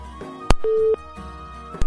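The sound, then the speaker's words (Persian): Telephone line cutting out after a dropped call: a sharp click, then one short steady beep tone, then quiet line hiss ending in another click. “فکر میکنم تماس استاد عبدالقدوس هم قطع شد متاسفانه”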